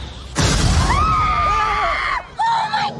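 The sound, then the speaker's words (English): A bomb hidden in a cake explodes with a sudden loud bang, followed by sustained screaming. After a brief pause, a second burst of yelling comes. “There's a bomb in the cake. Don't worry. I used to be a bomb guy. Stand back!”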